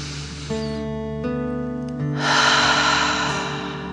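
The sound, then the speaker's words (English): A slow, deep breath in and out, filling the chest and belly, during a children's guided relaxation exercise. Soft sustained musical tones play underneath, and the breath swells into a loud, airy rush midway before easing off. “Fill up your chest and belly. Deep dragon breath in and out.”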